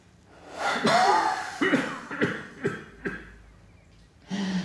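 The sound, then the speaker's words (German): A patient with suspected pneumonia draws a long, audible deep breath in during a lung examination, followed by a few short, sharp breathy bursts. “Bitte einmal tief einatmen.”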